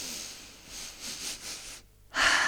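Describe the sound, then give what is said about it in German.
Breathing during a guided relaxation breathing exercise: soft, slow breaths build quietly, then a brief pause gives way to a loud, deep, airy intake of breath at the end. “was du dir wünschst, hier, jetzt und heute, atme das ein”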